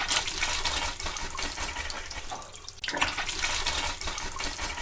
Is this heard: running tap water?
yes